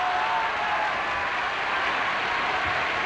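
Steady, dense applause from an opera audience for a soprano after her aria in a 1958 performance of Verdi's La forza del destino. The clapping holds an even level throughout, with no voices.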